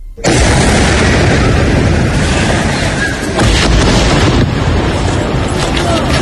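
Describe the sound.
Explosions in Gaza during a ceasefire: a dense, continuous rumble of heavy booming and crackle that stays loud throughout, with no separate, countable blasts.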